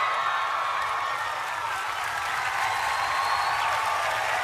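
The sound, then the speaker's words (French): A sitcom studio audience claps and makes crowd noise as it reacts to Monica and Chandler in bed together, a loud sustained roar that holds steady throughout. “écoutez le public découvrant Monica et Chandler dans le même lit, ce qui n'était absolument pas prévu, et les conséquences de ces réactions.”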